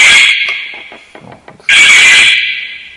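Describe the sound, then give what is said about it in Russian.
A triggered alarm blares: a loud, shrill, steady electronic tone that dips briefly with some clattering underneath, then snaps back to full strength and holds. “Это сигнализация сработала.”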